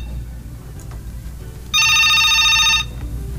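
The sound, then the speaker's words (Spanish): A telephone rings with an incoming call: a single bright, trilling electronic ring burst of about a second over a low, steady hum. “Tenemos una llamada.”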